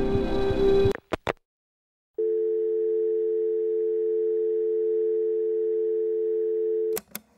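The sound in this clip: A telephone dial tone after the line is hung up: a couple of sharp clicks, a short silence, then a steady, unwavering hum for about five seconds, cut off by another click.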